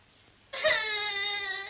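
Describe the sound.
An infant's cry breaks out suddenly after a moment of quiet, a single drawn-out wail that stays fairly even in pitch and loudness.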